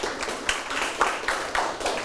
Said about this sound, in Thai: อาชีพค้าขายถูกไหมปรบมือให้เพื่อน